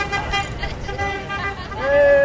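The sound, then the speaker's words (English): Car horns honk from traffic driving past a house in California, a sustained horn tone swelling loudly near the end over steady road noise, while a person talks throughout. “People honk their car horns as they drive past this house.”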